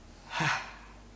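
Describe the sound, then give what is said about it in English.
A single deep breath taken during a guided meditation: a soft, airy hiss that swells and then fades within about half a second, heard alone. “and take a breath that goes, ah. A second breath and then a third.”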